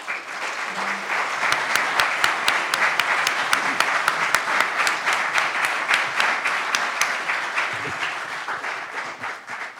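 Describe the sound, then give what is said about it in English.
Audience applause welcoming a lecturer to a program on the first year of Abraham Lincoln's presidency: loud, sustained clapping from many hands with sharp individual claps standing out, holding steady throughout. “Please welcome Gary Gallagher.”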